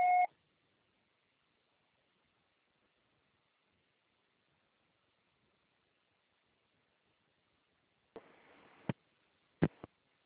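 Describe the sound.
A short, clear answering machine beep before a message is recorded, followed by a long silence and then a few faint clicks and a burst of soft hiss.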